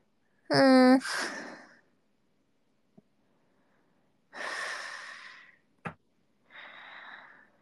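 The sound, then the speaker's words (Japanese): Mouth breathing, heard as a few heavy, breathy exhales. The first carries a short voiced, sigh-like tone, and two faint clicks fall between the breaths. “やっぱ、口呼吸しちゃう。みんな鼻呼吸しないとダメだよ。なんかマスクしないと鼻、口呼吸しちゃうんだよ。”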